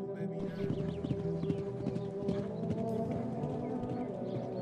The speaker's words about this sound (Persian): یه کولی چادر زده نزدیک مرزهای سرزمینم اسبم و زین کردم تا برم اونو ببینم